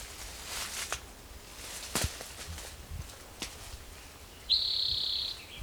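A bird calling outdoors in a field recording gives a single thin, high whistled note lasting about a second. It is faint and comes near the end, over a quiet background with soft scattered clicks and rustles.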